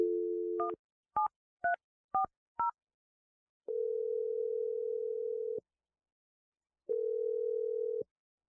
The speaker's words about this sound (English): Let's dial the number right now.